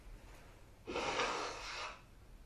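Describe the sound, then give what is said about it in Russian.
A single forceful breath during a kriya yoga class of rapid breathing, a breathy rushing whoosh lasting about a second, heard alone and fairly faint. “делаем вдох-выдох, делаем на другую. На задержке. Кому тяжело, делать без задержек. Делаем в быстром темпе.”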